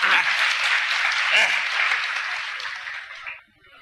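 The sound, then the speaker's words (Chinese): Audience applause at a comedy show: dense, steady clapping from a crowd that holds loud for about three seconds, then quickly fades out. “各位鼓鼓掌”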